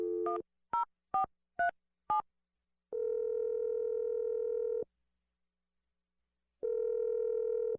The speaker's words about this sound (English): I'm gonna dial his number right now. Here we go.